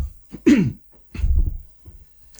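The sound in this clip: Two short, throaty coughs with silence between them, the first sharp and partly voiced, the second lower and rougher, followed by a faint trailing sound.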